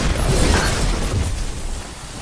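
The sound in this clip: A super ability explosion in a sci-fi shooter video game during a team Control match: a loud, dense roaring blast that holds for a moment and then slowly fades, with no voices over it.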